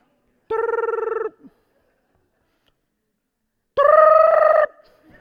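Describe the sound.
A telephone rings twice, each ring a buzzy, steady trilling tone lasting under a second, with a few seconds of silence between them.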